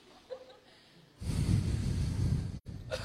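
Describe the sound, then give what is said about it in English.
A deep breath is drawn in, a long airy rush lasting about a second and a half that rises out of near quiet, then briefly cuts off before softer breathing noise returns. “okay, deep breath.”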